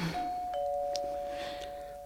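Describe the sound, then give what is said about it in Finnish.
A doorbell rings with a two-note chime, a higher tone followed by a slightly lower one that rings on steadily, clear and alone. “ovikello soi. Hitto on ovikello.”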